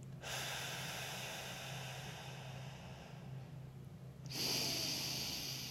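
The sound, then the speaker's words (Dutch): Deep breathing, drawn in through the nose and out through the mouth: a long, steady, airy breath, then a louder rush of air, over a low constant hum. “Adem nu 3 keer diep in door je neus en uit door je mond.”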